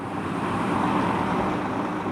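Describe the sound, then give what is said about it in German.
Trucks driving one after another through the town of Barut, heard as a continuous, steady roar of road traffic with a broad low rumble and no distinct separate passes. “Ein Lkw nach dem anderen fährt durch die Stadt Barut”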